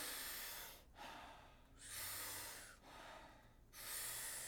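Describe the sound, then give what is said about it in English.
Powerful breaths drawn in through the mouth alternate with soft exhales, making an airy, rushing sound. A rapid, even series of about five breath cycles follows with no pause. “40 powerful breaths into the body through the mouth. The exhale is a soft exhale. It sounds like this.”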